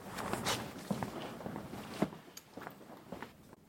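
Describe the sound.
Footsteps cross the floor toward a tactile model of Lund Cathedral, a few soft, irregular steps with faint shuffles and rustles between them.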